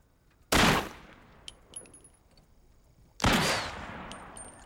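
Two loud gunshots are fired at a roadside sheriff election sign with a cutout figure. The sharp blasts come about three seconds apart, with faint high metallic pings after them.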